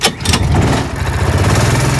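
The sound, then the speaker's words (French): An adult go-kart engine starts with a couple of brief bursts, then settles into a loud, rough, low rumble that holds steady. “Ça, c'est le bruit du moteur à l'allumage d'un karting adulte à partir de 14 ans.”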